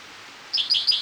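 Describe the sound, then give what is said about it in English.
Spotted towhee song: a few short, high, bright notes repeated at an even pace, standing alone over a faint steady hiss with no voices. “for spotted towhee number one”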